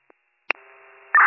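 A steady electronic tone plays on a disconnected cell phone line. A sharp click comes first, then the tone holds level for about half a second before a loud burst of noise cuts in at the end.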